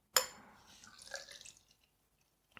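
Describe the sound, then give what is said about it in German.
Irish IPA beer poured from a bottle: a brief splashing, gurgling pour that starts sharply, runs for about a second and a half, fades to drips, then ends with a faint click. “Das lassen wir mal hier aus der Flasche. Ein irisches IPA.”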